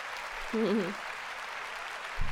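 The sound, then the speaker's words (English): A studio crowd gives polite applause, a soft, even patter of clapping that stays faint and steady throughout. “Oh, that's a very nice applause you're getting,”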